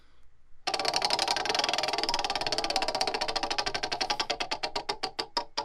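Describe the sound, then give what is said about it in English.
A spinning prize wheel clicks rapidly against its pointer. The many ticks run fast and even at first, then space out and grow more distinct as the wheel slows toward a stop. “So let's spin this wheel.”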